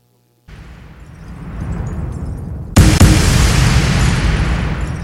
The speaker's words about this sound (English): Bombs!